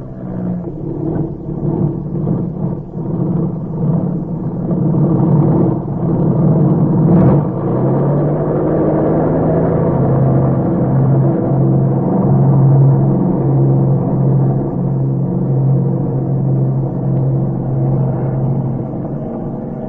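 An airplane engine revs before takeoff as a steady, low, rumbling drone. It swells louder after the first few seconds and then holds at a heavy, even level, with no voices heard.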